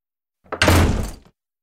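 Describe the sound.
A door slamming shut: a brief lead-in noise, then one loud, full-bodied bang that sounds briefly before cutting off, with no voices.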